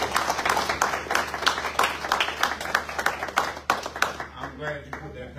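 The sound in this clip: Audience applause at a graduation ceremony: dense, steady clapping that thins out and fades near the end, with voices mixed in.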